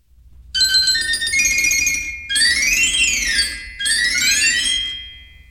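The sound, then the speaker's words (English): Bright, ringing chimes from a barrel organ glockenspiel of tuned steel bars sound together with shrill piccolo pipes. The tinkling melody comes in three lively phrases split by brief pauses, loud and clear with no voices. “The glockenspiel consists of tuned steel bars and is located horizontally across the front of the organ. Together, the glockenspiel and piccolos sound like this.”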